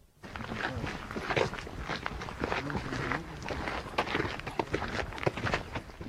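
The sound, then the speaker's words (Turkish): Footsteps climb a hill on a dirt road in North Macedonia, a border track between Kosovo and North Macedonia leading up from an Albanian village. Many steady, crunching steps continue throughout at an even, moderate loudness. “Kuzey Makedonya'dayız. Bir Arnavut köyünden çıkıp yandaki tepeyi tırmanıyoruz. Uzayıp giden toprak yol aslında sınır.”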